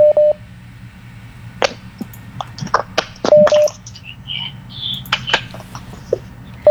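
Telephone line tones sound as a caller is put through to a late-night radio request programme. Brief steady beeps come at the start, middle and end, with scattered clicks and faint line noise between them.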